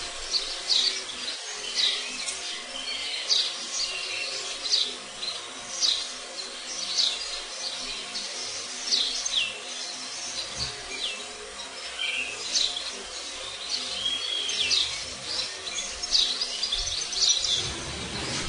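Birds sing steadily throughout, a dense stream of short high chirps and trills that repeat without pause, fairly faint and with no talk.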